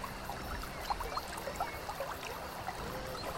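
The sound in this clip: Spring water pouring into a small distribution tank that supplies a community: a continuous, even rushing and trickling hiss with no pauses.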